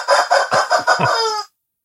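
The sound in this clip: A pet rooster clucks loudly: a few short, sharp, rhythmic clucks followed by a longer drawn-out call that stops abruptly, with no voices.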